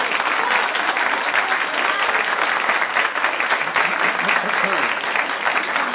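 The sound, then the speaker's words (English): Audience applause fills the space, a dense, even wash of clapping that holds at a constant level for several seconds, with some voices mixed into the noise. “thank you, applause till the end.”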